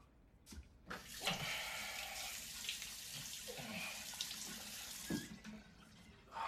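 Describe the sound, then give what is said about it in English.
Water runs from a sink tap while a man washes his face, a steady rushing hiss that starts up, carries a few louder splashing surges, and cuts off near the end. “Inside, he washes his face in the sink.”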